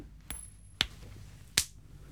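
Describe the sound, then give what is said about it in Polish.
A coin is tossed to pick heads or tails before a match: three sharp, separate transients over a quiet background. The first has a bright metallic ping that rings on briefly, followed by two crisp clicks as the coin is caught and lands. “No to ty wybierz, kto ma być reszką, a kto ma być orłem. Ale ty rzucisz raz jeszcze.”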